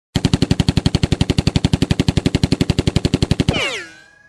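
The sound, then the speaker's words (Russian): A gunshot sound effect linked to a Colt .45-caliber pistol plays as a rapid, machine-gun-like burst of more than thirty sharp, evenly spaced shots. It ends in a fading, descending metallic ringing tail. “Достал он свой кольт 45-го калибра и пристрелил Кощея в голову.”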